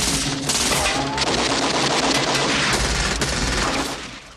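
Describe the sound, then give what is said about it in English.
Heavy gunfire breaks out in a truck shootout scene from Tango and Cash: loud, continuous rapid automatic bursts from many guns at once that run without a break, then fade near the end. “The two trucks meet, slamming into one another in the middle. Perrette's men are firing from all sides.”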